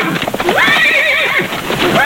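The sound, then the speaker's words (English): A cowboy's horse gives a loud, long whinny with a wavering pitch over quick clip-clopping hooves. “The company presents Gene Autry, America's favorite cowboy, and his horse, Champion, the world's wonder horse.”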